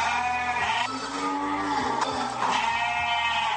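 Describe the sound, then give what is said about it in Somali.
Sheep and goats bleat at a livestock market on the outskirts of Djibouti city, in Balbala district, several animals overlapping in wavering calls that rise and fall in pitch, steady and fairly loud, without voices. “gegada xoolaha magaalada jibuuti waa goobta lagu xareeyo wixii xoolo nool lagu cunayo magaalada jibuuti.”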